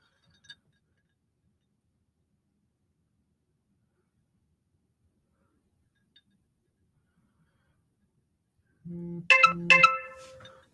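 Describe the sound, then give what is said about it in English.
A phone notification tone for a social media alert goes off as a short cluster of bright chiming beeps, loud and alone after a long stretch of near silence. “I do apologize for my phone popping off. We got some type of Twitter notification, and it's from Survivors Pacific Northwest.”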